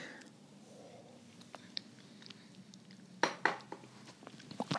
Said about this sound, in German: So, ich habe jetzt noch einen Schluck genommen von meinem Kakao.